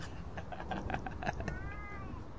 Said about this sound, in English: Kitty's interrupting the show.